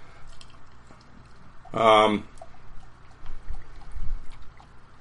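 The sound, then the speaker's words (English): Beer opened with a single short, fizzy hiss that stands out from low background noise, with faint rustling afterward. “Okay, actually, I should probably crack a beer for this one.”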